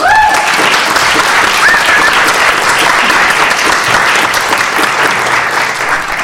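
An audience at a poetry reading welcomes a poet with loud, sustained applause. A few whoops rise above the clapping, and the applause stays full before easing slightly at the end.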